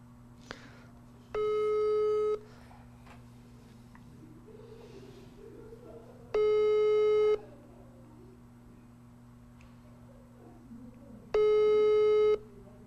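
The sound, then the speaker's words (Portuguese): Telephone busy signal on an outgoing call: three long, evenly spaced mid-pitched tones, each lasting about a second, separated by long gaps over a faint steady low hum. “vou ligar no Arthur, vamos, vamos ver se atende”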